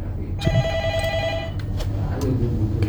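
A telephone rings once: a bright electronic tone with a steady pitch, lasting about a second over a low background rumble. It is followed by faint clicks and murmurs.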